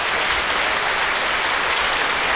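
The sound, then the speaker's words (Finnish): Enthusiastic concert applause at the Helsinki Music Centre as a violist takes bows after a performance. It is a loud, dense and unbroken roar of many hands clapping, steady from start to finish. “Antoine Tamestit on vielä siis lavalla vastaanottamassa kiitoksia innostuneelta yleisöltä musiikkitalossa.”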